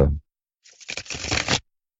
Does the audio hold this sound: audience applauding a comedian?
no